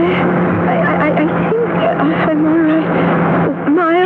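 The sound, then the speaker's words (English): A running car motor, stuck in reverse, gives a continuous steady drone throughout, with urgent voices talking over it. “I've got to cut this motor. Can't get to the ignition or...”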